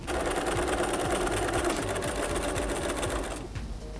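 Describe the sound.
Sewing machine stitching a garment's side seam at a corner, backing up two centimetres before reversing. A steady, rapid whirring run of stitches holds loud and even, then stops just before the end, with no talk.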